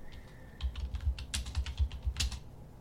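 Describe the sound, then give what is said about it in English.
Typing on a computer keyboard, a brisk run of many quick key clicks that starts after a short quiet moment and continues steadily to the end, with no voices. “Type in, I think, on YouTube, type in Bill Nye...”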